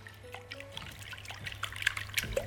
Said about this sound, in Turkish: Ben öncelikle yumurtalarımı birazcık çırpacağım.